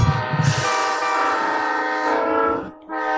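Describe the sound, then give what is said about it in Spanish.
A train passes with its horn blaring almost continuously, a loud, sustained chord over rumbling rail noise that dips briefly near the end before resuming. “Está pasando un tren.”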